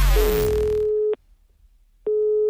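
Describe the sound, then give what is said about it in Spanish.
Ringing tone of an outgoing telephone call: after a loud noisy burst at the start, a steady mid-pitched tone holds for about a second, stops for about a second, then starts again. “Samber va a llamar a Rafi fingiendo ser del seguro”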